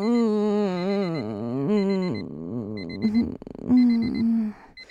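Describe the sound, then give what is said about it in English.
An alarm clock goes off: high electronic beeps in short repeated bursts, sounding with a wavering, warbling lower tone. “And the alarm goes off”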